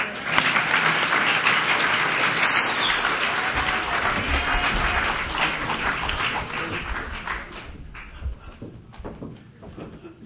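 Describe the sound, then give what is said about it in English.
An audience at a Laguna Beach meeting applauds to welcome a speaker. The clapping is dense and steady, then thins out and fades over the last few seconds. “Please join me in giving a warm Laguna Beach welcome to tonight's speaker, Frank from Sherman Oaks.”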